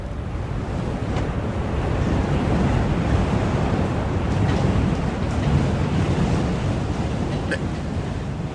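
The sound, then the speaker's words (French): Wind and waves of a squall at sea: a steady, loud, broad rushing roar of wind and surf that holds throughout without a break. “Ce n'est qu'un petit grain.”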